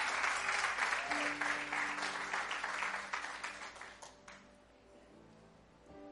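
An audience applauds during a bilingual church service, a dense burst of clapping that gradually thins and fades out after a few seconds, leaving faint sustained musical tones underneath.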